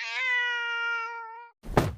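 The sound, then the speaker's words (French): A cat lets out one long, steady, tonal cry lasting over a second, then after a short silence comes a single dull thump. “voit le chat qui le regarde intensément, puis qui se met à trembler. Soudain, l'animal pousse un cri et meurt.”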